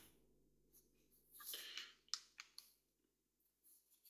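Mute button pressed on a PlayStation 5 controller: a few faint, sharp plastic clicks over a low, steady hum, with no voices.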